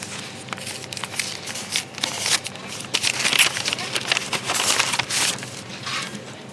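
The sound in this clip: Paper envelope being opened, with continuous crinkling, rustling and tearing sounds that swell in the middle and then ease off.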